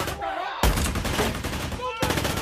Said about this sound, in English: We have machine gun fire in Midtown.